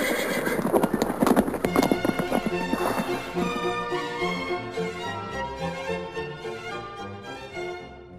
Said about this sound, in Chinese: 说完，他领着我们上了另外一辆马车，很快地往前跑去。